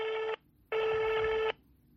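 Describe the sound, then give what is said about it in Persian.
Two buzzing ringback tones on an outgoing telephone call, a short one and then a longer one, each steady in pitch with silence between. “پس بریم که زودتر باهاشون تماس بگیریم و مصاحبه‌مون رو شروع کنیم.”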